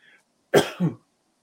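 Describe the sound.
A short throat clearing during a conversation, a single sharp two-part rasp lasting about half a second, fairly loud and heard alone.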